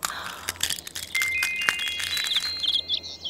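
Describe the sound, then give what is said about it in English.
Baby birds just hatched from eggs chirp in thin, high peeping whistles, a few short repeated calls that grow busier toward the end, heard alone over a low, soft hum. “They're baby birds. Oh, no! Look at those birds. They aren't very happy.”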